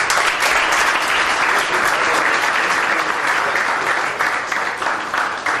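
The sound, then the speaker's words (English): Applause at an event as a memento is presented to a doctor: loud, dense clapping from a crowd, sustained throughout and thinning slightly near the end. “and of course, a memento for Dr. Shiva. A round of applause,”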